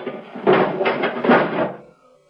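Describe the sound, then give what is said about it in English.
A spacecraft canopy closing in a science-fiction scene: a broad, airy sliding rush that swells twice over under two seconds, then cuts off into near silence. “You will be propelled into space. Close your canopy.”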